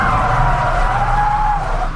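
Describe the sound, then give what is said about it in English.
A car brakes hard with its tires skidding: a loud, sustained squeal lasting about two seconds that sags slightly in pitch toward the end, over a low rumble. “I slam on the brakes and try and comprehend what's in front of me.”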